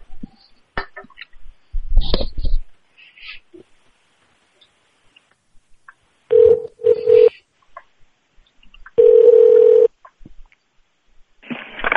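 Telephone keypad tones dial an extension on an automated phone menu. A few short beeps are followed by one longer held tone, with scattered clicks and handling noises earlier.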